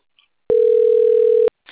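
A telephone call being answered: a single loud, steady electronic tone holds for about a second, with a short faint blip before it and another sound starting just after.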